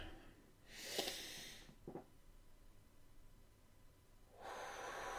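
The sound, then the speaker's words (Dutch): A deep breath in and out, heard as two soft, airy rushes about three seconds apart with a few faint clicks in the quiet gap between them. “En ik haal even diep adem.”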